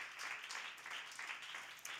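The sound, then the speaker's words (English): An audience applauds in a church: steady, dense clapping from many hands, moderately loud and continuous throughout. “Amazing people in this church, serving and serving, right? Give them a big hand, the biggest hand.”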